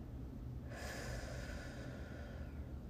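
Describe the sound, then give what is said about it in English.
A slow breath: a steady, airy hiss that begins after a short pause and runs to the end over a low, noisy background rumble. “So that's gonna look like this inhale and hold. One, two, three, four. Exhale.”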